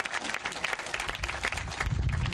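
Audience applause at a community event in a park, a dense, steady patter of many hands clapping with no voices over it.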